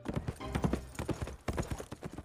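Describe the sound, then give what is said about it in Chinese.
A horse's hooves galloping off at speed as a rider carries a second person away on horseback, many rapid, evenly driving clip-clop beats that stay fairly loud and steady throughout. “拎起颜君玉上了马，一溜烟跑了”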